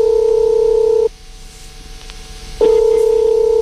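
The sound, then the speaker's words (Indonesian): Telephone tone while a call is placed to a listener: a loud, steady electronic tone that cuts out for about a second and a half, leaving faint background hiss, then resumes at the same pitch. “Kita akan coba hubungi coba Rahmat.”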